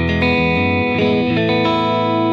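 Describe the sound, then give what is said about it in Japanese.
Slightly distorted electric guitar played dry with no reverb, sustaining thick, steady chords that shift a few times, loud and alone. “これ普通ギターのエレキギターちょっと歪んでますけど、”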